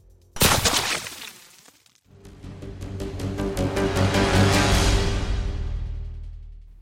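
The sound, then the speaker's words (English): A single loud rifle gunshot cracks out in an action-thriller audio drama and decays quickly. A swelling, rumbling noise with rapid pulsing follows and then slowly fades. “it gave Arihant a perfect moment of distraction to deliver a bullet through his head.”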